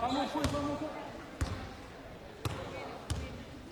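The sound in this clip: A basketball is dribbled slowly in the backcourt during a game. Four distinct bounces land at an unhurried, uneven pace under steady commentary and crowd noise.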